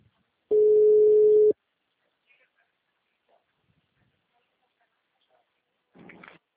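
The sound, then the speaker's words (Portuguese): A telephone ringback tone sounds while a call to a client is placed. One loud, steady, low-pitched tone lasts about a second, then near quiet follows, with faint sounds at the end. “Vou ligar para um cliente aqui.”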